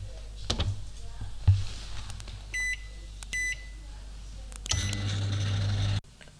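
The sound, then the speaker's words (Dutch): Short electronic beeps from an oven being set to preheat to 180 degrees for baking an apple pie: two clear, high tones in quick succession, then a low steady hum with faint handling noises. “Verwarm de oven 10 minuten alvast, voor op 180 graden. Oké, ga ik nu doen.”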